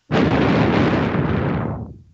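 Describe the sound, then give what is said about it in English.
A bomb explodes in the movie Invasion USA: one abrupt, loud blast that becomes a deep, rumbling roar and fades over about two seconds. “A bomb they got now. They always got some goddamn bombs.”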